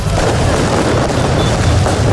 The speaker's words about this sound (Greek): Βεγγαλικά και συνθήματα συνθέτουν το εορταστικό σκηνικό στην πόλη του Φώτος.